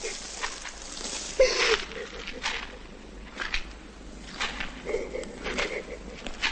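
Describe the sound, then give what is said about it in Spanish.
An angry man walks slowly through a stable, his footsteps soft and spaced at an uneven pace, with faint scuffing and rustling between the steps. “El hombre se aleja enfadado y camina despacio por el establo.”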